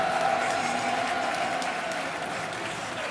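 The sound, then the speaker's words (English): Sustained applause from a sellout stadium crowd at The Den, Millwall's home ground, saluting a departing long-serving player; dense, steady clapping that eases slightly in level toward the end. “Huge round of applause around the den, but a great servant for the club.”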